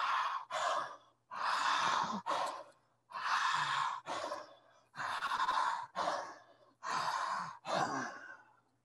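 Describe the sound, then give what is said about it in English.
Deep, forceful breaths taken with a wide-open mouth in a guided breathing exercise. Five big breaths come at a steady pace, each a loud rushing airflow in two parts, with short silences between them. “Start with 5 breaths like this. As big as you can. Big eyes, big mouth. 5 breaths.”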